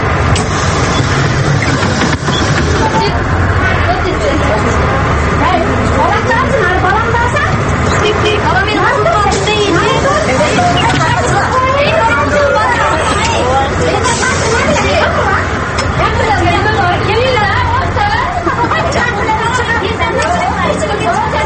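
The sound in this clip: Dense passenger chatter fills a crowded city bus in Osh, a steady overlapping babble of many voices with a low engine hum running beneath it throughout.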